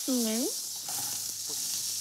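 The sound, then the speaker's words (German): Iberico pork cheeks being quickly seared in a hot pan give a steady, bright sizzling hiss that runs unbroken from start to finish. “Das wird jetzt immer schnell angebraten.”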